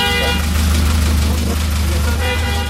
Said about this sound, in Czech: A můžu to i zatroubit